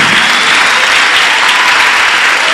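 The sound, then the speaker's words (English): Loud applause from the audience at a church meeting, a steady, unbroken roar of many hands clapping at a constant level with no voices on top. “Those of you at the back, you are supposed to be clapping.”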